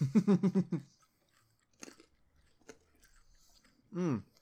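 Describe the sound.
Crisp crunching of a raw carrot being bitten and chewed: a few separate crunches spaced out across the middle, with brief bursts of a voice speaking at the start and end.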